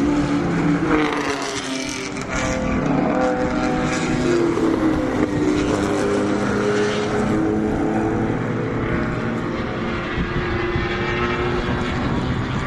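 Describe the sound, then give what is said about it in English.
Vintage racing cars drive on a flat, curvy track, their engines droning loudly and continuously with shifting pitch as they pass. “So these are drivers doing it for fun. This is the Varick organization. Whoa. I guess it's Vintage Automobile Racing Club.”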